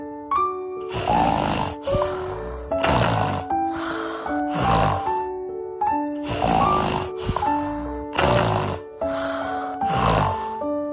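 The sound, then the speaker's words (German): Snoring from a sleeping person: a long series of loud, rhythmic snores with a tonal, almost sung quality, falling into a repeating cycle of strong inhaled rasps with no talk. “Das Schnarchen. Das ist halt so wie im Schlaf singen halt.”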